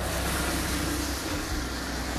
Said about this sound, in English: Sorry about the noise of cars.